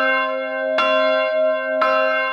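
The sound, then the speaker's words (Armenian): Armenian church bells ring in slow, evenly spaced strikes about a second apart, each a loud metallic clang whose deep resonant hum sustains between strikes. “Այսօր հայոց եկեղեցու զանգերը առավոտից ձայնում են աշխարհով մեկ։”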